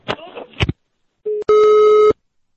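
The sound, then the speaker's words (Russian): Telephone ringing with electronic tone bursts of steady pitch, a short one then a longer one, loud and clear after a brief stretch of voice. “Запомни, сейчас такой звонок будет, я тебе сделаю.”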